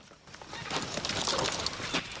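Hoofbeats of a gang's horses trotting up to a hut, a dense, steady run of clip-clops that grows louder after the first moment and continues without a break.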